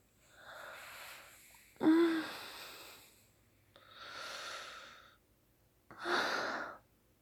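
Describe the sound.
A person breathes slowly and audibly: four drawn-out airy breaths separated by quiet gaps, the second and fourth louder with a sharper start, no talking.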